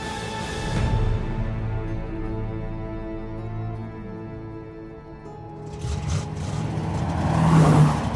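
A getaway car speeds away from outside a bank at full throttle, its engine droning steadily with a rich harmonic rumble that swells louder and climbs in pitch toward the end.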